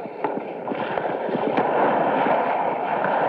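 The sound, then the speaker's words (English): Gunfire during a combat ambush at a landing zone: scattered sharp cracks and pops over a steady, rough noisy roar, with the shots irregularly spaced rather than in one clear rapid burst. “The machine guns are opening up.”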